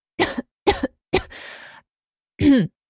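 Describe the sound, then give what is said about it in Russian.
A woman coughs and clears her throat: three short, sharp coughs in quick succession, a breathy rasping clear, then after a pause one final voiced throat-clearing grunt. “Откашливаюсь, прочищая горло.”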